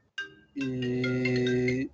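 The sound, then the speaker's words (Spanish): A mobile phone ringtone goes off during an interview with a visual artist in Mexico. It gives a short tonal note, a brief gap, then one long, steady, harmonic tone that cuts off sharply. “y el teléfono. Bastante popular. Sí, no, ya lo silencié.”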